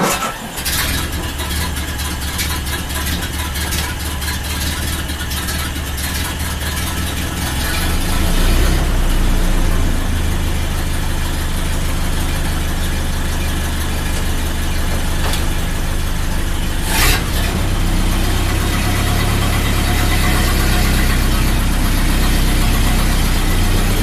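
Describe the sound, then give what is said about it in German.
A 1931 Ford Model A engine runs while driving, giving a steady, loud, low mechanical drone with a rough, knocking edge that grows fuller partway through and then holds, with no talk. “Dieses Mal in seinem Model A aus dem Jahr 1931. Das Schalten ist ähnlich leicht wie beim Model T. Nun gibt es eben einen Gang mehr.”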